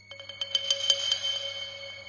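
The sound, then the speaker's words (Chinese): A telephone rings with a bright electronic ringtone: a quick series of pulses swells into a sustained, fairly faint ring that fades toward the end. “严福瑞给秦放打电话”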